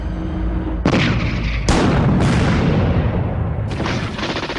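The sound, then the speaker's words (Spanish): Gunfire and heavy blasts ring out as a weapon fires on a Soviet military convoy. Four sharp, loud onsets each roll into a long, dense rumbling decay, with no pause between them. “Con gran precisión dispara y elimina a uno de los vehículos soviéticos.”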